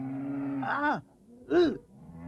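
A young cow gives two short, low moos one after the other, separated by a brief pause, over a steady droning tone.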